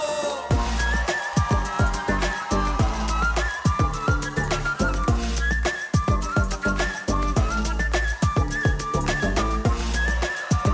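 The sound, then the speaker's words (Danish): Nose flute playing a bright, whistling melody of many short notes over a steady rhythmic backing of drums and other instruments, heard without talk. “Og så kommer der også noget, der kommer noget meget, meget skønt næsefløjte.”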